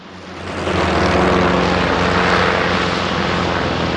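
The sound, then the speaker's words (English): A motorboat engine roars as the boat speeds in and circles in a bay among moored old ships. The sound swells over the first half second, then holds as a loud, steady, rough drone. “Billy Bob's boat speeds in and spins in a big circle”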